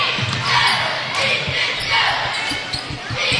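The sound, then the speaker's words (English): A basketball is dribbled during a game, making a run of quick, low thumps at an uneven rhythm. An announcer talks over the bounces. “Dribbles to his right.”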